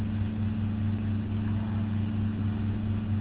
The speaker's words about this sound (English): Yes, I'm driving my car, but go ahead.